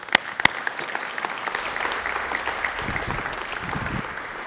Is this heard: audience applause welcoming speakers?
yes